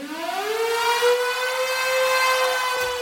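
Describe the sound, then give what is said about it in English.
A storm siren opens a live 1970s rock song, its loud wailing tone climbing in pitch at the start and then holding a long, steady howl on its own. “Let's go with a song that opens with a storm siren”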